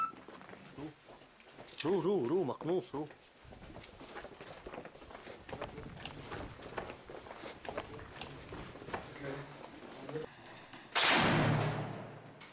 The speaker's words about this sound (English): You can hear the rocket fire. Every few minutes, a rocket comes over our head and lands in one of the militants' positions.